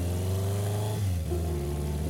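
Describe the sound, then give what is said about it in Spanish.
A motorcycle engine drones loudly and continuously as the rider sets off toward a forest, a steady mid-pitched rumble with a brief shift in tone about halfway through. “El hombre vuelve a subir a su moto y conduce hasta el bosque oriental.”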